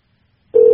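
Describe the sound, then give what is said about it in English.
An outgoing phone call's ringing tone starts after a moment of silence: a steady, even, mid-pitched electronic tone holding briefly and cut off. “I'm going to give her a call right now. We'll see if she answers.”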